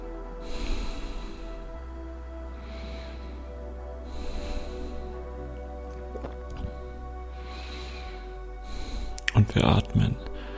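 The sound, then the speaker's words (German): Slow, conscious deep breaths in and out during a guided breathing exercise: several soft, airy inhalations and exhalations recur at unhurried intervals over a quiet, steady background, ending in a louder, more forceful breath. “Und du nimmst hier mit mir erstmal ein paar bewusste Atemzüge.”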